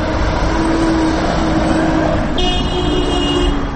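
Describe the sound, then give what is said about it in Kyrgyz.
Car traffic at the intersection of Lenin and Gaparaitiev streets in Osh, where cars are stopped at a red light: a steady, loud engine hum and road rumble, with a higher tonal whine joining in the second half. “Мен азыр Ленин жана Гапарайтиев көчөлөрүнүн кесилишинде турам. Бул жерде азыр Гапарайтиев көчөсүнөн келаткан машиналардын токтоп турушун светофордун кызыл чырагы көрсөтүүдө.”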